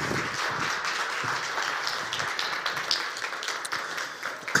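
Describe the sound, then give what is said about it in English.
Audience applause welcoming a speaker onto a church stage, a steady, even wash of many hands clapping at moderate volume. “And so as Paul comes up here, let's put our hands together and let's give him a warm Hope Ottawa welcome.”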